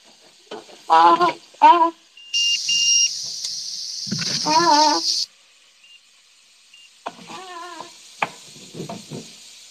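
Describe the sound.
Meat sizzling as it fries in oil: a bright, steady hiss that lasts about three seconds, with short, high, voiced cat-like cries before, during and after it.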